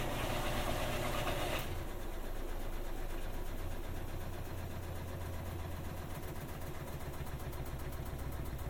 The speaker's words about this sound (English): so perhaps it was able to balance the clothing. I should point out that it wasn't horribly out of balance. The machine wasn't exactly shaking. It just sometimes makes a bit of a chattering noise like it was doing.